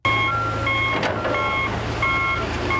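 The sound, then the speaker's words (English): Reversing beeps from heavy machinery removing dirt during a search for mudslide victims outside Guatemala City, a steady high electronic tone repeating in short bursts over a constant low engine rumble. “the sound of heavy machinery removing dirt while searching for mudslide victims in an area outside Guatemala City.”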